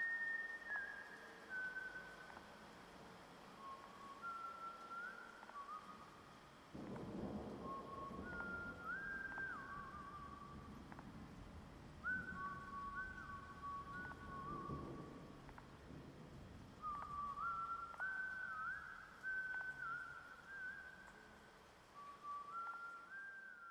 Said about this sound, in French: Claus se mit à siffler son air favori